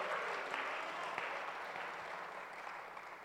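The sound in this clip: Congregation applause and cheering fill a church service, a steady, even wash of clapping hands that holds at moderate level throughout without any speech on top.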